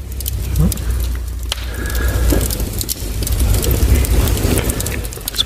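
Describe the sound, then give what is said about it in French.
Crackling of logs burning in a chalet fireplace: a steady, noisy hiss scattered with small sharp pops and snaps that runs unbroken through the whole stretch. “Le feu est chaud quand même. Il est chaud, ça. Tu peut-être aller enlever une bûche.”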